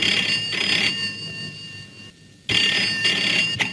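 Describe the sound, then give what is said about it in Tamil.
Telephone ringing in two long, bright, high-pitched bursts separated by a short quiet gap, with a brief chirp right after the second ring. “மறுபடியும் உங்களுக்கு தான் phone வந்திருக்கு”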